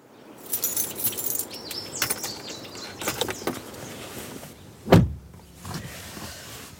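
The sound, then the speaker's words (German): A car being readied for a cold early-morning drive: power windows whir, keys jangle, and one loud thump stands out near the end. “Ich fahre jetzt los nach Rottach-Egern, wo ich mich mit Marlene treffe.”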